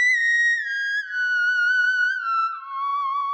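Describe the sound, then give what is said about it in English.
Theremin playing a smooth, sustained, whistling tone that slides gradually downward in pitch, with gentle wavering and no separate note attacks. “So this is the sound of the theremin.”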